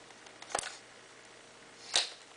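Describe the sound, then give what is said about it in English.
A battery grip is attached to a camera body with two sharp, faint mechanical clicks about a second and a half apart, heard alone against a quiet background. “And then the camera body will then accept the battery grip”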